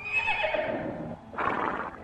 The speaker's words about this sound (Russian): И снова заржала лошадь, где-то совсем недалеко.